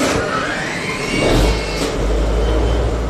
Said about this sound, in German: Im Hafen in Mannheim-Rheinau steige ich dazu, Leinen los und dann wird der Dieselmotor angeschmissen mit Knopfdruck.